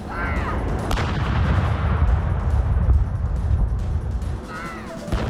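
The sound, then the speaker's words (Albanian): Artillery gun salute fired in Green Park, London, for the queen's sapphire jubilee: a couple of sharp reports over a continuous, loud low rumble. “nderimi me armë është bërë në parkun e gjelbër në Londër”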